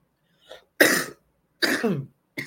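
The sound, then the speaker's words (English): Coughing and throat clearing from someone choking on dusty air as the air conditioning comes on: a few harsh, breathy bursts separated by short silences, the middle ones longest and loudest. “Excuse me. I don't know why I'm choking. As soon as the air comes on, it's probably dusty in here.”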